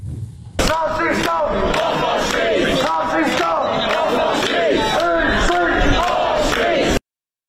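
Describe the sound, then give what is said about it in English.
A noisy crowd shouts and chants on the streets of Oxford at night. Rowdy, rhythmic bellowing starts suddenly and carries on loudly before stopping abruptly. “the streets of Oxford last night were somewhat noisy, to put it mildly. Take a watch of this.”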